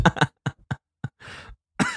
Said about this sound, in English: you're coughing because you're drinking coffee